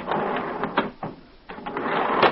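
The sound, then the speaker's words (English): A jet-propelled elevator sound effect from an old radio play, a rattling mechanical whoosh that surges several times, dips in the middle and swells again, heard alone. “Now, there's a novelty. An elevator with jet propulsion.”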